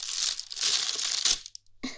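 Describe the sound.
Crinkling of a plastic bag being handled, bursts of bright rustling and crackling that stop briefly, then one short final rustle, moderately loud with no talk.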